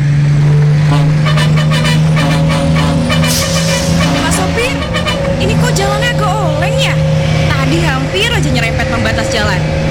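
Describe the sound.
A car driving on a road gives a steady, loud, low engine drone that runs unbroken throughout, while people talk over it.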